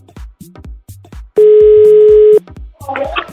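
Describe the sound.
A telephone dial tone sounds as a call is placed: a loud, steady single-pitched hum lasting about a second, with people talking before and after it.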